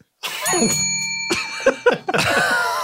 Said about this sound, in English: I once again forgot the bell until this moment.